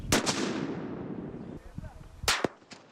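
Military sniper rifle shots ring out in pairs: two sharp, loud cracks in quick succession with a long rumbling decay, then a pause before two more sharp cracks close together, and a fainter report after them.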